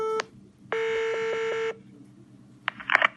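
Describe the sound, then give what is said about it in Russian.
Telephone keypad tones as a number is dialled: a short beep, then a longer steady tone lasting about a second, with a brief burst of noise at the end. “Я сейчас наберу.”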